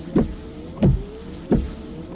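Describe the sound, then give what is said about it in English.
Rain-X wiper blades sweep back and forth across a car windshield, making three evenly spaced short motor whirs, each rising briefly and then fading before the next pass. “It's Rain-X wiper blades.”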